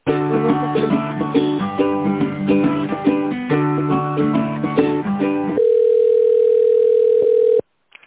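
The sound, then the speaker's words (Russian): Telephone on-hold tone while a business call is transferred: a bright, narrow-band melody of repeating synthetic notes, then a single steady held tone that stops abruptly, leaving a short silence. “Андрея Петровича перевожу.”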